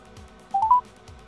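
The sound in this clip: A telephone number being dialed: three quick keypad tones in close succession, each a step higher than the last, clear over a low, faint background hum.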